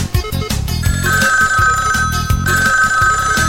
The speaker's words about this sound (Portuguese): Eu acho que vou dar uma ligadinha. Vai dar uma ligadinha agora. Pra minha gatinha.